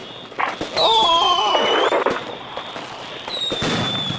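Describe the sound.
Fireworks go off inside a hotel room after a lit fuse: a shrill whistling screech with a rapid run of sharp pops and crackles, then a second, fainter whistle near the end.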